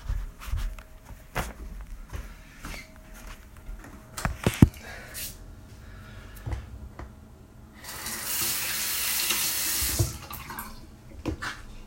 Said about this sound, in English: washing my hands and I gotta piss. So I'm gonna have to wash my hands again after I piss.